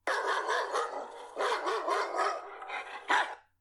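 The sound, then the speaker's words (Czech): A dog barks in rapid, uneven runs of sharp barks, a second burst following the first, then one final louder bark, with no other sounds. “Pravděpodobně řeknete štěkot psa, byť není pes jediné zvíře, které štěká.”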